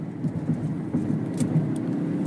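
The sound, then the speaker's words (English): Steady low road rumble from a moving car as it passes a truck carrying an oversized load, heard as a continuous engine and tyre drone with a thin hiss above it. “And as I'm passing a truck here, I'm doing this while I drive. Big oversized load.”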